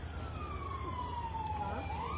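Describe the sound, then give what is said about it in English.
A police siren wails during a police standoff in Warwick, Rhode Island. Its pitch sweeps slowly downward, then turns and climbs, over a steady low rumble. “More sirens.”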